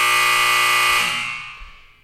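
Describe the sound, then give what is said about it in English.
A loud electronic buzzer blares, a harsh, steady tone rich in harmonics held for about a second, then dying away smoothly over the next second. “Got cut off at the buzzer.”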